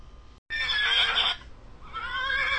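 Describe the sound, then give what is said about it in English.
A horse neighs in a stable: a loud, shrill whinny that breaks in suddenly and lasts about a second, followed by a softer, lower second call. “The horse wanted to welcome us back.”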